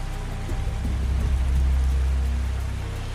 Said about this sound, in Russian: Было темно, дождь не прекращался, но стал слабее.